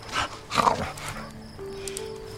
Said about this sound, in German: Ah, ein Hund. Und der tut wirklich nichts.